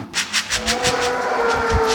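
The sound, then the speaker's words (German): Dairy cows on a GMO-free pasture-milk farm get excited as a bucket of grain and rapeseed concentrate feed is rattled. A quick, rhythmic rattling runs throughout over a sustained low tonal sound. “wackelt mit dem Kraftfuttereimer und die Kühe spielen verrückt”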